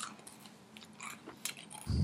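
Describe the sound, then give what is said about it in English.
Soft, crunchy chewing as Skittles candies of all five flavors are eaten together, with a few faint bites and crunches that grow slightly louder toward the end. “You ready? Tasting the rainbow. Yes. Okay, eat the rainbow.”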